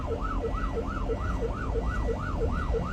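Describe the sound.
Ambulance siren wailing as it tries to clear the road through traffic: a fast, loud up-and-down wail repeating about nine times in steady rhythm over a low engine rumble.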